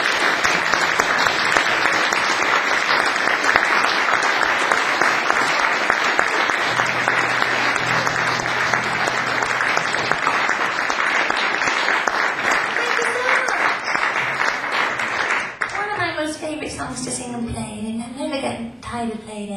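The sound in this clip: Warm audience applause for a singer before her encore, dense and steady for about fifteen seconds, then thinning out as a voice begins speaking.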